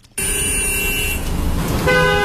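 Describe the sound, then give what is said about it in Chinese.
Car horns blare in morning rush-hour traffic at a busy Beijing intersection crowded with buses, cars, bicycles and pedestrians. Long, sustained horn tones ride over a constant traffic roar, and a different horn takes over near the end. “记者来到朝阳区西大望路与建国路的交叉路口，正是早高峰时段，公交车、小客车、自行车和行人挤满了各个车道，都在缓慢通行，汽车鸣笛声不断。”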